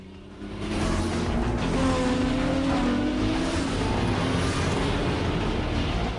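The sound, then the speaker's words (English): A car accelerating hard along a road in a film scene: after a brief quieter start, a loud, sustained engine roar with a broad rushing rumble holds steadily to the end. “An oncoming car swerves off the road. Trey returns the map and accelerates ahead.”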